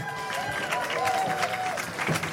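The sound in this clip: Audience applause welcomes a performer on stage just before a song at a live show for adults, a dense, steady patter of clapping with a few raised voices and whoops riding over it.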